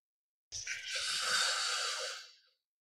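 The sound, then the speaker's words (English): A slow breath is drawn in through the sides of a smiling mouth: one airy, hissing inhalation of about two seconds that holds steady, then fades away. No voices are heard. “the air is drawing in through the sides of your mouth. Now make this your very last one and go as slowly as you can.”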